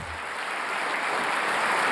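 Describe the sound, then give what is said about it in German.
Applause from about 200 prisoners greeting a visitor at the entrance of a prison southeast of Rome. Many hands make dense, steady clapping that swells slightly, with no talk over it. “Mit Beifall begrüßten die Häftlinge den Papst am Eingang.”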